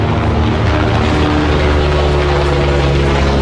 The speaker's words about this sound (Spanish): helicóptero de la prefectura de la policial de carabineros rastreando desde el aire a este sujeto que actuó como pistolero.